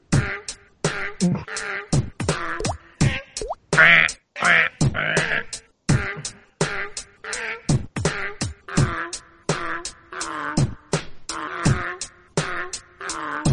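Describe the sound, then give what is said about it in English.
Many loud duck quacks in a tight, regular rhythm, nasal and raspy, repeating in short bursts over about thirteen seconds with brief silences between them. “I love all the quacking in it.”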